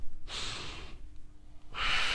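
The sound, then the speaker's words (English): Slow panting breaths from a breathing-exercise demonstration at a workshop, two long breathy rushes of air separated by a quiet pause. “Panting breath. Now, panting breath can be done like this or it can be done slow.”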